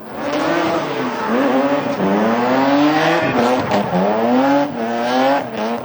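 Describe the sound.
Drift cars racing on a circuit in New Caledonia during a competition day, engines revving loudly up and down in repeated surges with tire squeal, continuous and without talk.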